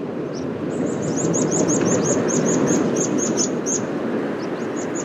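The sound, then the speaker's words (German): Thin, high calls of meadow pipits migrating south over a North Sea island in autumn: many short, sharp notes in a quick, fairly even series over a steady low rushing background. “Und da sie im Herbst auf den Nordseeinseln so häufig sind, ist für mich das Gezippe der sich südwärts verabschiedenden Wiesenpieper eben ein typisches Herbstgeräusch.”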